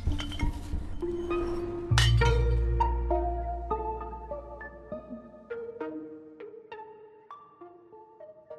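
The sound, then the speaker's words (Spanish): Glass bottles clinking as they are taken out one after another in a botánica shop in New York, giving bright ringing tones at varied pitches in a string of separate clinks that fade out. “sacando toda clase de botellas hasta dar con la copa”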